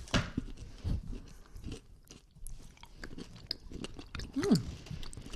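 Crunchy liquorice candy with small crisp pearls being chewed, an irregular series of soft crunches and munching bursts at low volume, with a short hum near the end.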